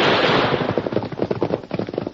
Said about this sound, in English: He think them shoot from ridge.